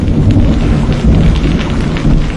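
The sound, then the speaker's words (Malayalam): Rain starting to fall, a loud, dense, continuous hiss that stays even and unbroken from start to finish. “അയ്യോ, ദേ മഴ പെയ്യാൻ തുടങ്ങി.”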